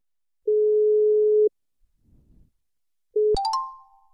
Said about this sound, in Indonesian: orang telepon.